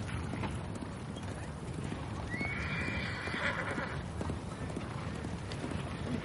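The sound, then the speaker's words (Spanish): A horse gallops with steady, rapid hoofbeats as a soldier rides against the direction of a caravan on a road beside gentle hills. A clear whinny rises above the drumming hooves midway, with no voices. “Un militar galopa en sentido contrario a la marcha de la caravana.”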